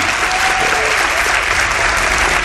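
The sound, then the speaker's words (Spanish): Audience applause for a guide being welcomed at a public talk, a dense, steady wash of many hands clapping that stays loud and unbroken for the whole stretch. “Sergio Rodríguez, para quien pide un aplauso, no se lo hemos dado antes”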